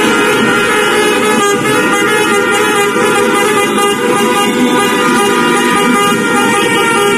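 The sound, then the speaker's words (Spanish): Car horns blare in street celebrations after Spain's World Cup win, a loud, dense, unbroken wall of overlapping tones that continues throughout. “Los sonidos que seguro han escuchado tras las celebraciones de la Copa del Mundo que ha logrado España”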